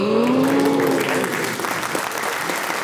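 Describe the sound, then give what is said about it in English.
Studio audience applause during a quiz show score reveal, a full, loud burst of many hands clapping that begins over a short sustained tone and gradually eases off toward the end. “That's a very good noise from the audience, as if the curtains have parted to reveal this week's star prize.”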